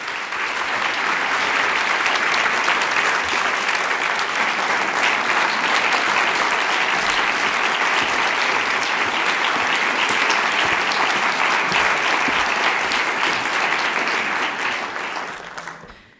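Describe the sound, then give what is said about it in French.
Sustained audience applause welcoming a performer before a literary reading. Many hands clap in a dense, steady wash at even loudness for about fifteen seconds, then fade out at the very end. “Carole Bouquet, et on l'applaudit”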